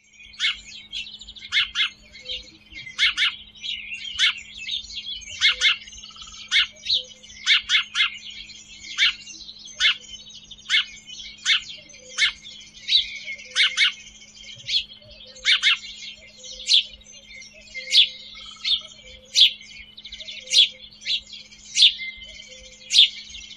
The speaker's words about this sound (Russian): Воробей.